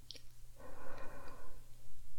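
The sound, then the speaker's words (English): One slow, deep breath, a soft airy rush of air that swells and fades over about a second, alone above a faint low hum. “Follow my breath as you breathe in”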